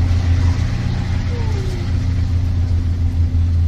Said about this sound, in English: This bus is headed back to the visitor center.